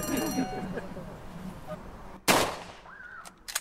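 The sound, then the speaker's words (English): A sharp crack from an SMLE .303 rifle, a service rifle of both World Wars, comes after a man speaks. A brief ringing tone and a couple of small clicks follow. “303 rifle used during the Second World War, used during the First World War. And what we're going to do is we're going to shoot the thing out of the tree.”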